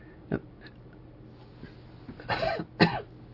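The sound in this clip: Coughing from a tickle in the throat: two short, raspy coughs close together near the end, after a few faint throat sounds in otherwise quiet surroundings.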